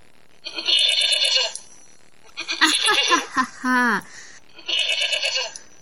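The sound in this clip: Goat bleating in several wavering, harmonic-rich calls separated by short pauses, loud and nasal.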